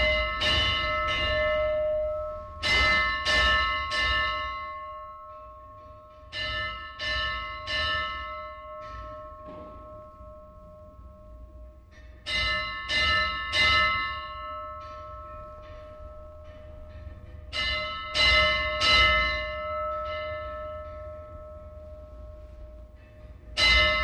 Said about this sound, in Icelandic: Síðasta hringingin var tekin upp inni í kirkjunni sjálfri.